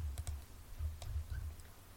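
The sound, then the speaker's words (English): A few sparse computer clicks while someone plays a text adventure game. Two come close together, then a couple more follow after a pause, faint over a low steady hum. “Alright, I'll just click for it quickly now.”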